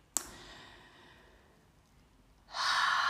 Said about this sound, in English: Nice deep breath there.